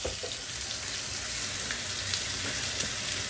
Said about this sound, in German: Jetzt sind gerade die 2 Kalbsachsen. Die müssen Sie sich filetiert vorstellen. Schon aus wie Schnitzel mit einem fetten Knochen drinnen. Die werden jetzt scharf angebraten.